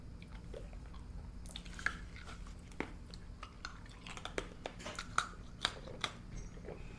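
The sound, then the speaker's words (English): Chewing of buttery, chewy pistachio brittle: many small crunches and wet clicks at an uneven rhythm over a low, steady background, with no talking. “It's chewy. It's a type of brittle.”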